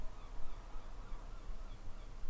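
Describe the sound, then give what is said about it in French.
Seagull calls added as a sound effect form a dense, continuous squawking chorus over a rough, noisy background, pulsing in loudness without any clear individual call standing out. “Je vous ai mis des bruits goélands pour que l'immersion soit complète.”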